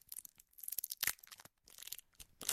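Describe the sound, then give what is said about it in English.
Crisp tearing and crinkling of a candy wrapper being torn open: a quick, irregular run of bright, rustling crackles and rips in several bursts with brief pauses, fairly quiet and heard alone without voices. “opening a candy.”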